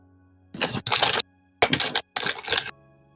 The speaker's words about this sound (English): Let's roll that dice again.